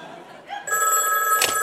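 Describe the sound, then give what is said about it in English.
An office telephone ringing: a bright, steady electric ring that starts partway in and continues unbroken to the end, loud and sustained. “Well, that's the Comedy Central phone. Probably ringing to congratulate me. I'll let it ring a little bit, not too needy.”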